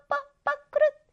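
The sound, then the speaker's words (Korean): Bird calls ring out three times, each a loud, reedy, honking note with rich harmonics; the first two are short and evenly spaced and the third is longer and drawn out, with silence between them. “새가 지저귀는 소리예요.”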